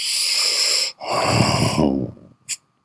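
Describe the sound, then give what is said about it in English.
A breath, drawn out and audible alone: two long, breathy rushes of air followed by a brief short puff, fairly loud and close. “That little breath, kid. That sounded so good. I have to do it again.”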